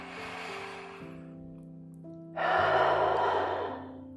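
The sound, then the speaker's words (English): A slow, deep breath in and out during a guided breathing exercise. A soft inhale is followed by a louder, longer exhale, over sustained, gently shifting music chords. “join me as we take three deep breaths”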